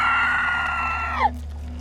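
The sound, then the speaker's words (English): A creature screeching: a sustained, high, harsh shriek that bends downward in pitch and cuts off abruptly near the end, over a steady low hum that continues afterward. “And then you hear it screech for a moment”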